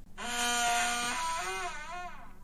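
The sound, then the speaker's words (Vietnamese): A wooden door in a dilapidated old house creaks as it slowly swings open, a single sustained, strained tonal groan whose pitch wavers and bends toward the end before fading, heard alone. “Chiếc cửa gỗ vặn mình kêu lên ken két, từ từ được mở ra.”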